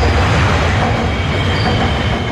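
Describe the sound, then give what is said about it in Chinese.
A Metro Line 1 train roars past overhead on the approach bridge of the Yangtze River Second Bridge in Wuhan, with a loud, steady rumbling rush and rail clatter that lasts the whole stretch, with no voices. “在不足一公里外的黄浦大街长江二桥引桥下，地铁一号线列车从头顶呼啸而过”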